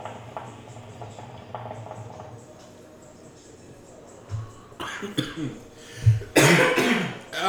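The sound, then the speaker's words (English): A few rough coughs from smoking hookah burst out in the second half, growing louder and more clustered toward the end after a quieter stretch of faint low rumbling. “it's hookah cough. Don't get it confused with Corona cough.”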